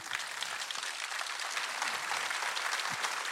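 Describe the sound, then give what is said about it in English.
A church audience applauds to welcome the pastor. The clapping is thick and continuous, holding steady for a few seconds. “Come on, put your hands together for Jesus today.”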